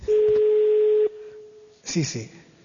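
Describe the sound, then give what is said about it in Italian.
Telephone call tones: a loud, steady tone holds for about a second, drops to a fainter continuous tone, then gives way to a short burst of sound on the line as the call connects. “Ecco qua, allora, io chiamo qualcuno, già fatto il numero”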